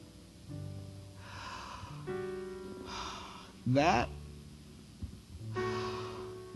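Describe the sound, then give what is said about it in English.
Deep breaths are drawn in and let out slowly as soft airy rushes, with a sharper snort-like burst midway, over a steady low sustained tone. “that breath that I just took, the breath that you just took, it's a gift from the Creator.”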